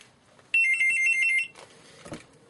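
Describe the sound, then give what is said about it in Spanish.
A telephone rings in one loud, warbling electronic trill lasting about a second, then stops, leaving fainter scattered rustling noise. “Ahí están llamando por teléfono.”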